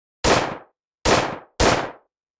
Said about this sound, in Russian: Эхо выстрелов разнеслось по кладбищу и затихло.